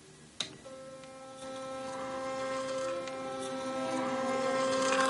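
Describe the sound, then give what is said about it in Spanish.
An electric toothbrush in use, switched on with a brief click, then a faint, steady motor buzz with a bright harmonic hum that swells slightly. “Va al baño y coge el cepillo de dientes eléctrico de Juliet. Le echa pasta de dientes y lo utiliza.”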